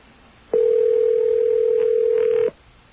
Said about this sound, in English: Remember when every ring sounded different? They all sound the same now.